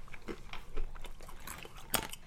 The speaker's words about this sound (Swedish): De är mycket större än vanliga mandlar, ser du? Ja, och de här är också spanska. De är lite rundare i formen. Ja. Är de salta de här eller ja. Är de bara färska? Smaka och säg vad du tycker.